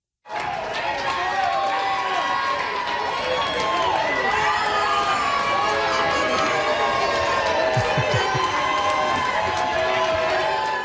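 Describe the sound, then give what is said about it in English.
Friends and family cheer a returning Little League baseball team at Little Mountain in Vancouver: a dense, steady wall of crowd noise with high shouts and whoops, likely including children, staying loud throughout. “That is the sound of the cheers that the Vancouver Little League baseball team received of Little Mountain from friends and family when they arrived back in Vancouver this afternoon.”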